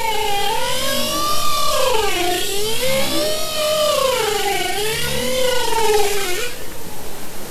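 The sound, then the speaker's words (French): Bowhead whales calling underwater produce long, loud, wavering tonal moans rich in harmonics. The pitch rises and falls in repeated smooth sweeps for about six seconds before the calls fade out. “Alors c'est pas des baleines à bosse, c'est baleines boréales.”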